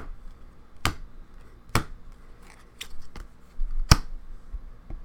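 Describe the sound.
A deck of cards being cut by hand gives sharp, crisp slapping clicks. Several quick snaps come at uneven intervals over a low background hiss.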